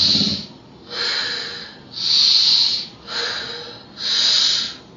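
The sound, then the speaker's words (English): Deep breathing: five loud, hissing breaths taken in a slow, steady rhythm with short pauses between them, heard alone with no talk. “And so I'll breathe in like real deep.”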